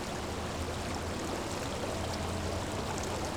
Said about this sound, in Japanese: ああ、これは温泉のお湯です。